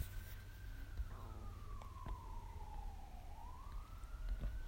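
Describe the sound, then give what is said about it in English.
An emergency vehicle siren passes outside, a faint single wail that glides slowly down in pitch and then swings back up, over a steady low background rumble. “Anyway, there goes a siren.”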